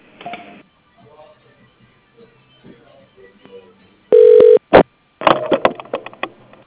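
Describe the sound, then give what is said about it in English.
Telephone line tones as a call is transferred: a loud steady tone, then a brief second burst, followed by crackly, uneven line noise after faint earlier sounds. “Please hold while I transfer your call to General Mailbox.”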